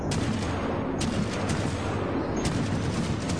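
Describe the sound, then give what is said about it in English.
Shotgun blasts in a video game, fired to breach a door: several sharp, loud booms burst out of a dense, continuous roar of noise, spaced unevenly, with no talking. “How is that slow motion when you blast it with a fucking shotgun?”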